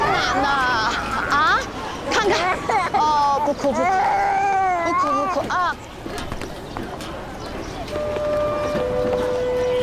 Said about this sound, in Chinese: 哦，不哭不哭，不哭不哭啊！